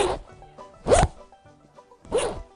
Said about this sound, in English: It is a zipper going up and down and back again.